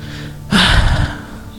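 A deep breath is drawn in as a sudden, loud, airy inhale of about half a second, then fades. A low, steady hum runs underneath throughout.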